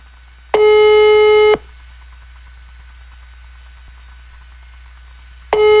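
Telephone ringback tone on an outgoing call: one long, steady, buzzy tone, a pause of several seconds over faint hiss, then the next tone begins at the end.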